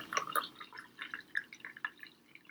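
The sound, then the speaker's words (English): Spiced coffee is poured into a glass, leaving room at the top for cream. The liquid splashes and drips faintly in many irregular small bursts, with no talk. “And then we will add our spiced coffee until there's about half an inch or 3/4 of an inch of room at the top to float our cream on top.”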